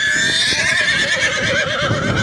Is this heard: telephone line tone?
no

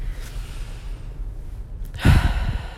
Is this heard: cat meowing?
no

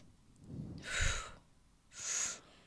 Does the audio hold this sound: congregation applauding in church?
no

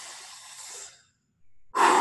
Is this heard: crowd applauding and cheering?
no

